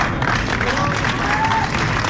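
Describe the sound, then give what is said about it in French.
Thunderous applause as Estela de Carlotto, the 94-year-old president of the Grandmothers of the Plaza de Mayo, arrives and crosses the hall; dense, sustained clapping from a large crowd with faint voices mixed in. “L'arrivée d'Estela De Carlotto déclenche un tonnerre d'applaudissements.”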